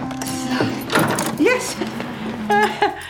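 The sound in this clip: Keys jangle and a lock clicks as an old workshop door with a loose handle is unlocked and opened, several sharp metallic knocks and a sliding clatter mixing with people talking.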